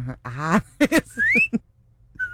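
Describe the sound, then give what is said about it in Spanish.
A quick catcall whistle rises in pitch after a few short vocal bursts, then a brief steady whistle note follows. “El chiflidito para sus nenas de 100 y menos, mijo.”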